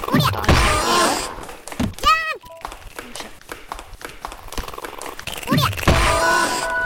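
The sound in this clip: A video game character jumps and lands, giving a firm thunk with a short chirping, sweeping tone, heard under a person talking.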